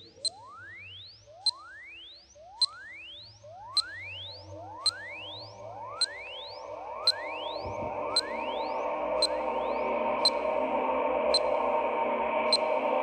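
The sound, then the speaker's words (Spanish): Time signal pips counting down to Christmas: short, high beeps at a steady pace of about one per second, with repeated rising sweep tones and a hiss that swells beneath them. “Atención al sonido de los pips. 3 segundos. 2 segundos.”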